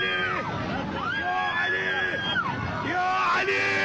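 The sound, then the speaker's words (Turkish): Passengers scream in an airliner cabin after an engine failure shortly after takeoff, with the ceiling collapsing and luggage falling. Loud, overlapping high-pitched wails and yells rise and fall continuously throughout. “Çığlıkları duyuyorsunuz. Uçağın kabin bölümünde tavan da çöktü.”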